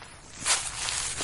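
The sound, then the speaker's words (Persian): Heavy footsteps on dry, yellow fallen leaves: a faint, brief crunching rustle that swells once near the middle and then settles into a soft scuffing tail. “قدمهایم سنگین بود، انگار این صدای استخوانهای من است که از برگهای زرد زیر پایم شنیده میشود.”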